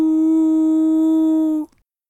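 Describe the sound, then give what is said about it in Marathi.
A man's voice imitates a wolf howling at the moon with one long, steady-pitched, clearly tonal "aooo" call that is heard alone and cuts off abruptly. “त्याने चंद्राकडे पहाट डोके वर केले आणि चक्क एका लांडग्याप्रमाणे ओरडू लागला, आऊ”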